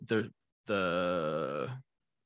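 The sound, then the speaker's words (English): A vocalized yawn: a short voiced burst, then a long, drawn-out groaning yawn with a slightly wavering pitch that fades out. “So that's yawn number five.”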